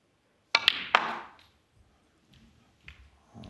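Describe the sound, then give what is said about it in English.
Snooker balls clack together as the cue ball cannons into the blue. Three sharp, bright clicks come in quick succession, followed by a few faint, soft knocks. “That's a bit careless, that. I think he can still cut this red in and hold for the black, but he shouldn't have been cannoning the blue there.”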